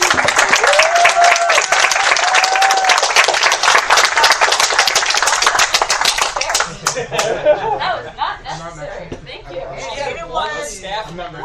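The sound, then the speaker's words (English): An audience applauds, a dense burst of many hands clapping loudly for about six seconds before thinning into scattered claps, laughter and cheering voices over chatter. “can we give a round of applause for our viewers tonight?”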